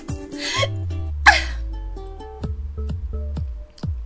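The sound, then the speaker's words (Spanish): Hiccups from a person: a louder vocal burst first, then a few short, sharp voiced hiccups in an irregular rhythm with quiet breathing between. “¡Ya me dio hipo!”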